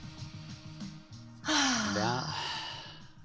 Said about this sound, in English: Real quick, take a deep breath with me in.